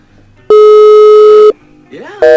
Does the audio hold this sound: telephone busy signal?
yes